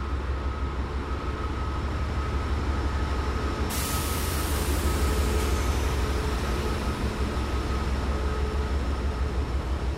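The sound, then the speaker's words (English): A passenger train hauled by diesel locomotives gives a steady, even rumble throughout, with a brighter hiss joining a few seconds in and holding to the end. “For the enthusiasts for these diesels, we have got locomotives 816 and 134.”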